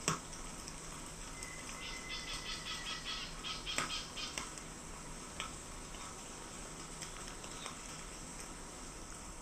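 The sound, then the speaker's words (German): Faint fluttering and rustling outdoors at night, with soft crackles and scurrying patter. A cluster of light flapping and ticking sounds comes in the first half, then thins to a few scattered clicks over a steady low hiss. “Es knistert draußen und huscht und flattert.”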